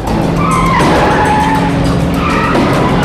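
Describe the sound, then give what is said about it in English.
Tires skid and squeal as a car swerves in front of a van on a deserted road, a loud, sustained screech lasting the whole moment over engine noise. “The car pulls in front of the van and swerves to block its way.”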